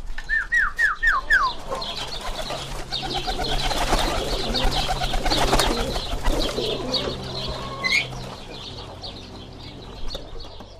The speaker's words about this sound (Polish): Idziemy do ptaków. Musimy ich pożegnać, prawda? O, mamy karmę.